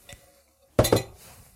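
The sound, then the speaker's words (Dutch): A spoon clinks twice against a bowl while soup is stirred into a pastry filling. The two sharp, bright taps come close together, with near quiet before and after. “Zo, ik roer dat er allemaal goed in. Ziet, je hoort dat waarschijnlijk wel.”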